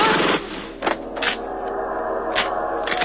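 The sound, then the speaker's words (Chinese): Gunfire and explosions from a staged shootout at a guesthouse sound effect: sharp bursts crack out at intervals over a steady, noisy rumble, with no voices. “仇人相见，分外眼红，顿时枪声大作，爆炸迭起。”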